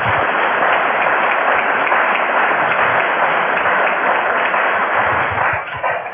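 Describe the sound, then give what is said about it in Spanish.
Audience applause at a meeting held at a university: dense, steady clapping continues loudly for the whole stretch and thins slightly at the very end. “Un aplauso para Olga, vale.”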